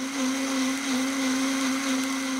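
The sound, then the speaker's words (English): A blender purees roasted, charred vegetables that have gone mushy, juicy and caramelized, giving a steady, continuous whirring motor hum that holds at an even loudness throughout, with no voices. “By roasting or charring them, they have that inner characteristics come out, so they're now mushy and juicy and sort of caramelized and a little burnt, and we're gonna puree these.”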